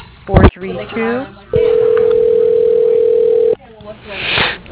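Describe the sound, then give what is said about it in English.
Telephone tone: a steady, unbroken single-pitch hum of about two seconds, with a voice talking briefly before and after it. “For Rick Morey or fabric sales, please hang up and dial”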